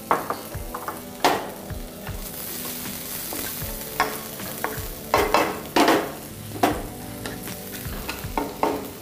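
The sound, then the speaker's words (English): Garlic sizzles steadily in hot oil in a wok over a high flame, with a utensil repeatedly stirring and scraping through it, giving sharp clicks and scrapes over a continuous frying hiss. “just heat the oil on a high flame. So garlic, generous amount of garlic.”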